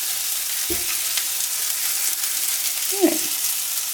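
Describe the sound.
Food sizzles in a cast iron pan with a continuous bright hiss at moderate level, broken by a couple of brief stirring knocks.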